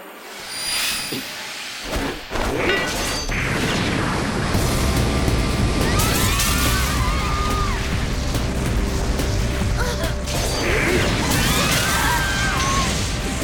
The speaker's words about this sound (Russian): Что это было? Взрыв?